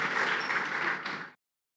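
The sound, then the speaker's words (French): A church audience applauds, a faint, dense patter of clapping that stops abruptly after about a second and a half, leaving silence. “Nous acclamons et nous sommes en train de nous rasseoir.”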